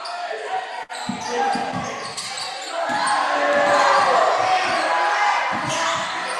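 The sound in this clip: Basketball dribbled on court during a women's game, with low thumping bounces beneath loud play-by-play commentary and steady crowd noise.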